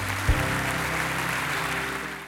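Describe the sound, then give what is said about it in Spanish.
A church audience applauds the Lord at the close of a service. The clapping is steady and sustained, with a low tonal hum beneath it. “¿Cuánto le pueden dar un aplauso al Señor?”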